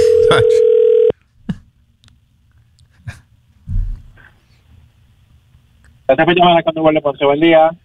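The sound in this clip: A phone line tone sounds as a call is placed, one steady tone lasting about a second, followed by a few faint clicks and a low thump on the line, then a voice starts speaking.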